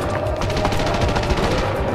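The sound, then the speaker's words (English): Rapid gunfire aboard a ship with a breached hull: a dense rattle of many overlapping shots holds at a steady, loud level for two seconds, with no voices. “Open fire!”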